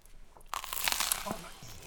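A crisp crunch as someone bites into a toaster-browned croquette made with Jagarico potato snacks and topped with sauce: one short, dense burst of crunching that then fades.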